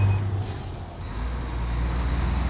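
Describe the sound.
A truck engine rumbles low and steady as the vehicle drives off, with a short hiss of released air early on.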